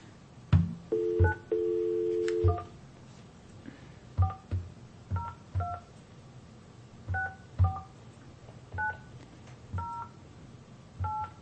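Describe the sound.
Touch-tone telephone dialing: many short dual-tone beeps in irregular bursts, with one longer steady tone early on. The beeps are clear and moderately loud, with no voices.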